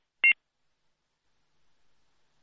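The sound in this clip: Phone call disconnected tone: a single short, high electronic beep, followed by near silence with only a faint low murmur.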